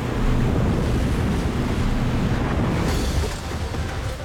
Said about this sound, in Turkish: Idaho'nun kalbinde dönüşü olmayan nehir şiddetleniyor.